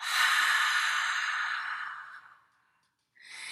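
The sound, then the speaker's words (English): A whispered open-mouthed "ha" breath: one long airy exhale that holds, then fades over about two seconds, followed by a brief silence and the onset of another breath. “inhale a deep breath in. And just for starters, just for practice, open the mouth and whisper a ha sound.”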